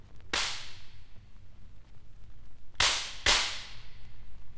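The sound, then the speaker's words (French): Sharp whip-like cracks from an orchestral slapstick, two long flat wooden boards joined by a hinge and snapped together. Three loud, bright snaps ring out alone: one early, then two close together near the end. “Ce sont aussi deux morceaux de bois, mais longs et plats, articulés au moyen d'une charnière qui forme le fouet. L'imitation d'un claquement de fouet est saisissante.”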